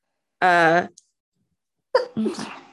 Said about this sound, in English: Bless you.